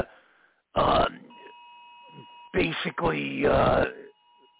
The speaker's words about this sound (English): it looks like an Amber Alert coming through the phones, lines, and everything in general